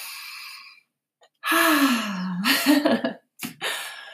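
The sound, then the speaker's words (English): A deep breath is drawn in and let out with a long, audible, partly voiced sighing exhale, followed by a brief further breath, with no speech. “So let's just start by taking a deep breath.”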